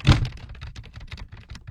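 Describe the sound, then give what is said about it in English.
Typing on a computer keyboard: one heavy thunk opens, then a rapid, uneven run of many light clicks and taps, moderately quiet, with no voices. “that was me typing.”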